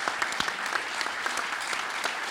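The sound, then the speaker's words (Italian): Audience applause at an on-stage event of the Liguria regional government: a dense, steady clatter of many hands clapping throughout, even in loudness with no single voice standing out. “Un bel applauso!”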